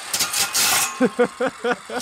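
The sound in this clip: Rasping saw strokes cut through a John Denver cassette tape until it is nearly sawn in half, a loud, coarse pulsing noise that gives way to a voice speaking.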